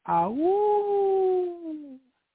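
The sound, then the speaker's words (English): A person's voice imitating a wolf howl, a single long cry that swoops upward at the start, holds a steady sustained pitch, then sags and fades at the end. “I let out a howl”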